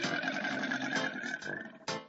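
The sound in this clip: A dragon roar for the letter D in a children's alphabet lesson: a long, raspy, growling roar, loud and unbroken, followed by a short, sharp second burst at the end.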